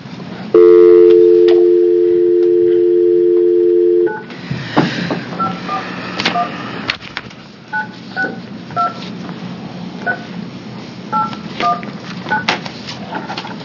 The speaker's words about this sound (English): I was going to say we did a redial. That might work.